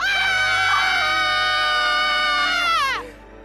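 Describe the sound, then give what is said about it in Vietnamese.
Two men scream loudly in terror in the dark beside a banyan tree: one long, high, piercing shriek that holds steady for nearly three seconds, then slides downward and cuts off abruptly. “Bỗng cả hai cùng hét toáng lên vang dội.”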